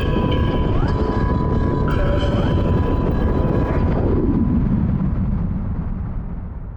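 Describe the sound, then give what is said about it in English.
A video game escape shuttle crash-lands: a loud, steady roaring rumble with high synthetic tones and short falling sweeps, which dies away toward the end. “Crash landing imminent.”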